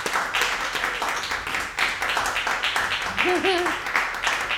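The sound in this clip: Applause and clapping from an audience welcoming a guest onto a live Edinburgh show, a steady, dense wash of claps that runs the whole way through.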